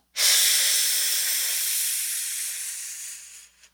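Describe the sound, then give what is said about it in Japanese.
A slow inhalation during a timed breathing exercise: a single steady, airy hiss lasting over three seconds, gradually softening before it stops. “5秒吸って、”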